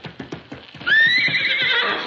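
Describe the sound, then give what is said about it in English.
A horse being worked as a jumper in a riding ring clip-clops with several hoofbeats, then lets out a loud, long whinny over the continuing steps. “Take it easy with that horse.”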